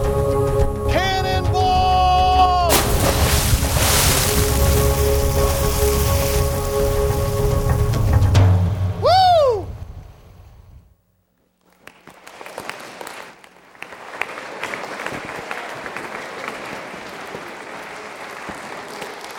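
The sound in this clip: Audience applause welcoming a speaker comes after a stretch of tonal sound and a brief silence. It starts suddenly and continues as a steady, dense wash of clapping to the end.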